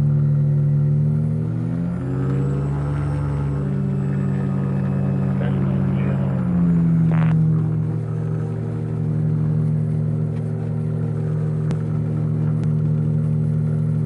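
Motor glider engine revving while taxiing onto a runway: a loud, continuous, steady drone whose pitch shifts a few times as the throttle changes.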